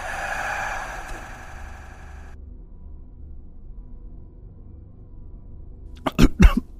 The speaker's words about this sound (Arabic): اللقمة وقفت في زوره وفضل يكح ووشه اتقلب